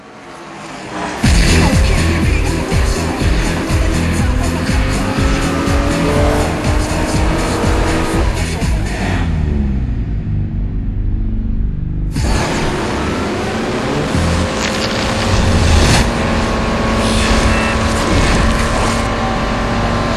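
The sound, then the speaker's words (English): Race cars roar through the video game Forza Motorsport 2 with loud, continuous engine noise and squealing tires. A brief drop in intensity falls near the middle before the roaring engines surge back in. “We're shifting this franchise into fifth gear. Ladies and gentlemen, Forza Motorsport 2.”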